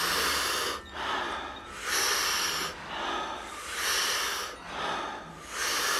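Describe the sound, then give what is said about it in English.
Deep, rhythmic group breathing in a guided breathwork exercise. Big inhales fill the chest and belly and are followed by soft exhales, repeating in several even cycles of airy, rushing breath. No one talks. “The breath is so big when you pull it in that your chest and your belly expand. And again, the exhale is a nice soft exhale. We do it rhythmically, we do it together, and it sounds like this.”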